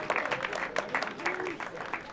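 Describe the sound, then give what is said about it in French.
Audience applause greets the lead trumpeter of a jazz orchestra, a brief burst of steady, dense clapping at moderate loudness with scattered sharper claps. “c'est Brice Pichard. On peut l'applaudir d'ores et déjà.”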